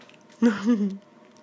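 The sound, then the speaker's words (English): Squishy, wet chewing of Jell-O, a single brief gooey burst of mouth sound standing alone against near silence. “I sound gross when I eat Jell-O. Because I eat it in a very childish way.”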